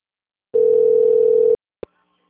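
A telephone ringing tone on a call plays as one steady, even beep lasting about a second. It is followed by a single short click, with no talk.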